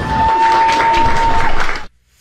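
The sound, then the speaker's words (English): An audience applauds after a world record for mouse clicks. Steady, fairly loud clapping runs over a thin sustained tone, then cuts off abruptly into near silence. “Why clap after that? Come on. It's not even a skill.”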